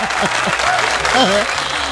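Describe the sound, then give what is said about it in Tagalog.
Audience applause from a live crowd on a Saturday morning show, dense and steady clapping lasting the whole two seconds, with a voice speaking over parts of it. “Lakasan niyo pa yung palakpak.”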